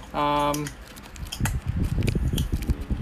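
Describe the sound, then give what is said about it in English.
Typing on a computer keyboard: a quick, irregular run of sharp clicks and taps, with a voice heard over them. “I just type in something”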